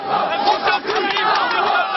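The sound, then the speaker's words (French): An agitated crowd of about 200 young people shouts insults at a visiting minister and his escort, a dense, continuous roar of many overlapping voices with a few louder bursts. “Autour, 200 jeunes, un comité d'accueil plutôt agité.”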